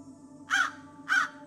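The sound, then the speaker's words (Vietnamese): Crows cawing loudly at night, two harsh, drawn-out caws spaced about half a second apart, standing out over a faint steady hum. “Giờ tí vừa điểm, những tiếng quạ kêu lên réo rắt, cất lên inh ỏi như muốn xé toạc màn đêm.”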